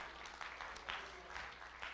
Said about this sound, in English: Oh, somebody give the Lord a hand clap of praise.